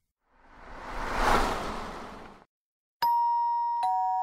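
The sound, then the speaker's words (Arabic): Doorbell ringing at an apartment door. A soft whoosh swells and fades away, then two bright, ringing chime strikes follow close together. “ذهبت لأفتح الباب في شقتي بالدق، متوقعا كالعادة أن من يرن الجرس هو شخص يلومني على شيء ما”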